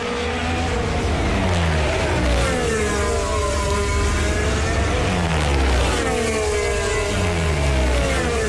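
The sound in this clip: A Formula 1 car at the Austrian Grand Prix runs its tyres over the kerb. A loud, continuous engine whine shifts up and down in pitch, with a rough, dense roar underneath.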